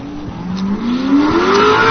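A race car engine revs at a competition with cones set out on the track, its loud tone climbing steadily in pitch as the revs build.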